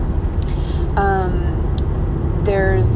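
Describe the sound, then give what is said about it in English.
Engine of a Dodge minivan as the gas is pressed, a loud, steady low rumble that drones throughout with little change. “You can probably hear my vehicle in the background. Every time I press the gas a little, it's like, I drive a Dodge minivan.”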